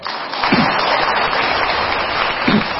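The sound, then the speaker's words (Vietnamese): Audience applause at an evening gathering before a traditional folk song is sung, a steady broad patter of many hands clapping, with a couple of brief vocal sounds rising through it. “Vỗ tay.”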